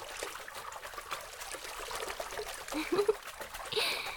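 Light water splashing from flutter kicks during swimming practice, a faint continuous trickle and patter of small splashes that grows a little busier toward the end.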